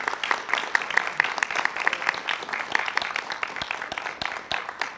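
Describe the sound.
An audience applauds the Board of Publications candidates, a steady patter of many hands with distinct sharp claps standing out throughout.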